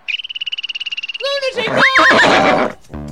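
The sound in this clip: A horse neighing in a barn arena: a rapid pulsed, high trilling tone runs for about a second, then swells into a louder, harsh, broad whinny that drops away briefly near the end.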